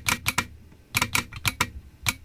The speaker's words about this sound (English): Yes, that's a noise. That's the noise. Yeah, hear that? That's the noise of a telegraph key.